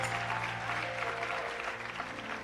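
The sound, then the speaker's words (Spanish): Sustained applause from an audience at a worship service, a dense, even clatter of many clapping hands that holds at a steady level throughout. “Denle un aplauso al Señor, denle un aplauso al Señor”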